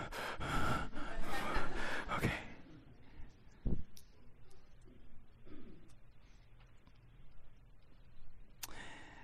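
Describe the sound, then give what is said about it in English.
Deep, deliberate breathing from a person demonstrating a calming breath: a loud, long breathy rush over the first couple of seconds, then softer, quieter breath sounds trailing off. “start small, and then breathe like this.”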